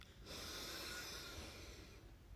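A big, deep breath drawn in slowly as a calming pause: a soft, steady airy hiss lasting about two seconds, heard alone.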